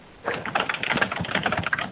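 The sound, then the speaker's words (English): Someone types on a computer keyboard during a conference call. After a brief quiet start, rapid, steady clicking of keys runs on continuously, moderately loud and with no talk. “And we have someone typing. If you could, please mute your line when your microphone is not active.”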